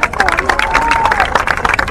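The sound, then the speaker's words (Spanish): An audience claps to welcome Evo Morales at a political gathering. The applause is loud and dense, with crowd voices mixed through the brisk, scattered claps. “Empezamos dándole la bienvenida a Evo Morales. Un gran aplauso para Evo.”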